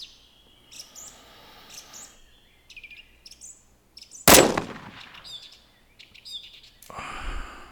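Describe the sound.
A single rifle shot fired while hunting: one sharp, loud crack with a short trailing decay midway through, surrounded by steady birdsong and insect chirping.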